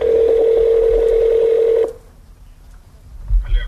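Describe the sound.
A telephone tone during the dialling of a number holds steady at one pitch for about two seconds, then cuts off abruptly, leaving faint low background noise.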